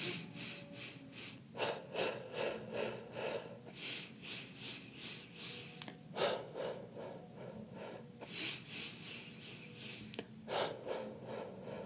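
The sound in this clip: Rhythmic breathing exercise with steady inhales and exhales, the exhales pushed out through the mouth with rounded lips. Many soft, breathy bursts repeat in a regular pulse, moderately loud, with no talk.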